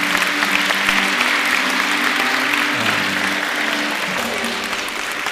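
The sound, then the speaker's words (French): Church audience applauding during a French-language service, a dense, steady wash of clapping that holds at an even, full loudness from start to finish. “Alors, acclamons notre Père du ciel. Acclamez-le.”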